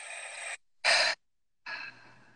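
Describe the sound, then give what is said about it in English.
Breathing in through the nose and clearing exhales in a guided breathing exercise: three separate airy bursts of breath with pauses between, the short middle one loudest, and no talk. “So three clearing breaths, just to delight in the gift of the breath. Inhale through the nose. Exhale, clear.”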